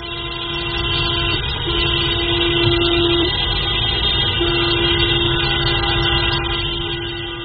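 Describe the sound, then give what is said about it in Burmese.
Car horns blare without a break during a street protest by motorists, with several steady horn tones overlapping into a loud, continuous wall of sound that holds for the whole stretch. “ကားဟွန်းတန်တွေကိုအဆက်မပြတ်တီးကြတာ”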